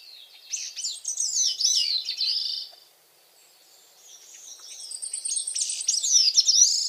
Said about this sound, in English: Yet each year, this little songbird makes the long journey from the Caribbean islands to the forests of the northeastern coasts of North America to make a call that a few of us may be lucky enough to hear in person.